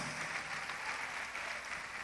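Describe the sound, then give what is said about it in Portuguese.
Faint, steady applause from an audience during a church service, a soft continuous patter of many hands clapping. “Vamos aplaudir mais, vamos aplaudir mais.”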